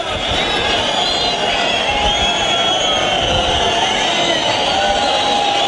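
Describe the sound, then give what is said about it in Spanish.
Bullfight crowd at a rejones corrida petitioning for an ear for Paco Velázquez after the bull of his alternativa: a loud, sustained roar of voices laced with shrill whistles that waver in pitch throughout. “Y el público que pide la oreja para Paco Velázquez.”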